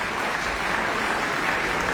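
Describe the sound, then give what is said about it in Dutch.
Sustained, even applause from an audience after a chamber concert of clarinet, bassoon, horn and double bass at a music festival, a dense steady wash of clapping with no pauses. “het publiek weet nu dat ze kunnen klappen tot ze een ons wegen”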